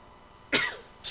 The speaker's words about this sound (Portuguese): É, o espirro veio, né? Uhum. O espirro veio.